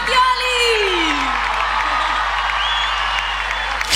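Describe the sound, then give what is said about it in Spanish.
Audience applause and cheering: a loud whoop sliding down in pitch at the start over a continuous wash of clapping and crowd noise that stays strong to the end. “¡Fuerte el aplauso para Nico Mattioli!”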